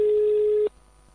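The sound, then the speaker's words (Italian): Ringing tone of an outgoing telephone call: one steady, mid-pitched electronic tone holds for about two-thirds of a second, then cuts off abruptly into near silence. “Un attimo solo, stiamo già effettuando la chiamata.”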